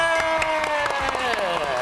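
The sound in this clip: Audience applause at a family game show prize presentation: scattered claps throughout, under a clear talking voice.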